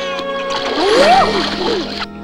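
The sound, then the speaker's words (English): A puppy splashes along on its back in water, making a continuous splashing and sloshing that lasts about two seconds, with a pitched, gliding tone sounding alongside it. “Copper splashes along on his back and Todd ducks him. Big Mama watches from above and gets splashed too.”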